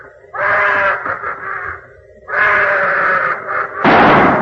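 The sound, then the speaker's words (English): A gunshot from a Sherlock Holmes radio drama lands as one loud, harsh bang at the very end, after drawn-out wailing, cry-like sounds. “Good shot, Watson. You winged him in the leg.”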